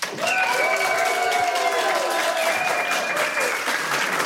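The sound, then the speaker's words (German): Audience applause greeting a band as it is introduced at a live show: thick, steady clapping that holds at a high, even level for about four seconds. “Einen ganz großen Applaus.”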